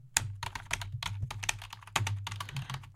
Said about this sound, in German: So eine halbe Stunde lagst du dann da und es wurde nur so getippelt.